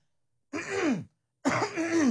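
A person clears their throat twice, each a rough, guttural rasp lasting about half a second, separated by a short pause of silence.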